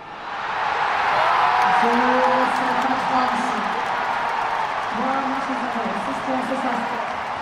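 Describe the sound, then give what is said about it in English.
A crowd cheers and roars as a French team wins the Davis Cup tennis final. The dense, loud din holds steady throughout, and tuneful voices, like chanting or singing, rise above it at moments. “Well, you probably guessed that is the sound of a victorious French team winning the Davis Cup.”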